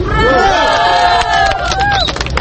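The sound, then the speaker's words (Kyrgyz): Young protesters at a rally for fair elections shouting hurrah together, loud overlapping voices rising and falling in ragged unison over crowd noise and babble. “Мындай уранды угар замат тегеректе жүргөн милиция кызматкерлери кайрадан чогула калышты.”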